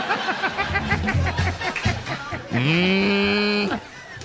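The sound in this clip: A bull gives one long, low, steady moo near the end, after a stretch of choppy, broken sounds.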